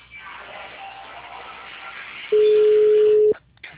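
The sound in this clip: Telephone line sounds as a number is dialed: faint hissing static, then a steady electronic tone held for about one second, followed by a brief crackle.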